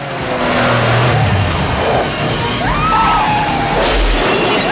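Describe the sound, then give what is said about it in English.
A Porsche convertible crashes, flips and drives into a lamppost, making a continuous loud din of engine roar, crunching metal and shattering, with a brief rising whine partway through. “John rams diagonally into the front end of the Porsche and it flips. The convertible drives straight into a lamppost.”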